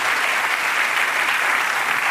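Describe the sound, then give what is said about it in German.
Warm applause from a studio audience at the close of a German talk show, a continuous, evenly textured patter of many hands that holds at a steady level without talk. “Wissen Sie, wie gut es tut, an dieser Stelle Applaus zu erhalten?”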